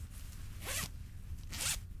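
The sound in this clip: A zipper on a clothing pocket, sewn back to front so it pulls upward to open, makes two quick rasping strokes about a second apart. Both are fairly quiet and no one speaks.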